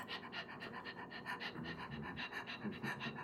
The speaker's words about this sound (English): Sometimes we even do the breath of fire, which is fast, repetitive breathing that sounds like